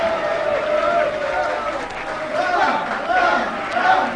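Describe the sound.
An audience at a circus show cheers and shouts in a continuous, rising and falling crowd roar, with voices calling out above it.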